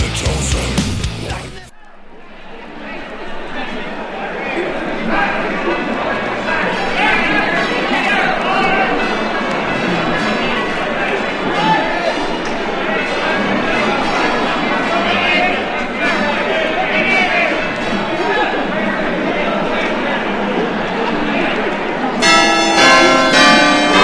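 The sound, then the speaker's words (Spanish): New Year's Eve bell chimes ring through a loud, continuous crowd, with chatter and many voices throughout. “conectamos directamente con las campanadas del fin de año.”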